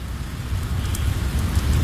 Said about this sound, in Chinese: 狂风携带着雨星子灌入大门，在走廊上横冲直撞。 还在下雨？